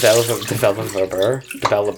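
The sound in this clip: Water rushes into a film developing tank as a plain-water stop after the developer is dumped. It is a continuous, splashy pour that rises and dips in loudness in short surges.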